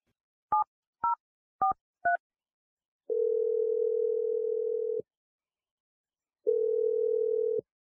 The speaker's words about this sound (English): Here we go. I'm dialing it right now.